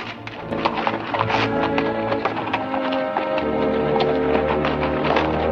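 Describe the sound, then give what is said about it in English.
Horses trotting along a street, hooves clip-clopping in a busy, continuous patter of many overlapping sharp knocks at a steady moderate loudness throughout. “They trot past John and Sim without acknowledgement, turning onto a side street with Dolby in tow.”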